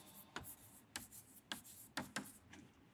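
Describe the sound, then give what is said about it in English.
Handwriting, heard as a few faint, sharp scratchy pen strokes spaced irregularly over a quiet background. “Let me write them down for you, lest we forget them.”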